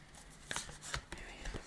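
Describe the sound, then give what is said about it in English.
Playing cards being handled and turned over during a card reading: a few soft snaps and papery slides stand out against a quiet, hushed background. “Make sure all my cards are facing the right way.”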